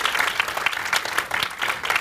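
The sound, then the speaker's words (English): An audience applauds after a panel discussion, a dense, steady wash of many hands clapping at full volume with small swells, continuous for the whole moment. “Yep, round of applause.”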